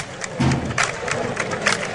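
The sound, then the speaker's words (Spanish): Bullfighting fans at a bullring clap their palms in a loose, spaced rhythm over a constant crowd murmur, each clap sounding as a short, dry slap. “Bueno, lo están animando un poquito con las palmas aquí algunos aficionados.”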